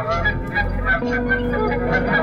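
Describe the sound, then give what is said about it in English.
Geese honking on a farm, with many loud, nasal honks overlapping in a continuous, busy chorus. “Often he would chat with the chickens and geese”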